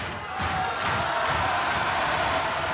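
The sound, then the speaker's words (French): A concert crowd of 1800 cheers and acclaims a performer at the Casino de Roubaix in 1967, a dense, continuous roar of voices that swells after a brief quieter start and stays loud. “1800 spectateurs qui attendent et acclament un homme fatigué, un peu malade, qui a même pas 40 ans, va livrer son ultime concert, Jacques Brel.”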